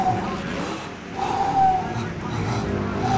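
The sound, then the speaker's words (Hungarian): Race cars on the formation lap, warming their tyres, produce a continuous engine drone with a thin whine that rises and falls. A commentator's voice runs over the top. “El is indult a felvezető kör, a fiúk már melegítik is a gumikat.”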